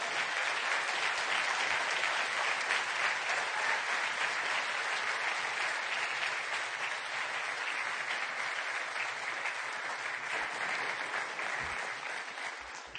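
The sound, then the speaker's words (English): Church audience at New Life Church clapping and applauding to welcome a guest preacher, a long, steady, unbroken patter of many hands that holds its level before easing slightly at the close. “Thank you for clapping.”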